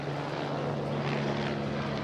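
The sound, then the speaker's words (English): Helicopter rotor and engine noise in an avant-garde opera performance: a dense, steady roar with a low, constant hum underneath and no distinct beats. “We haven't even got to the helicopters yet.”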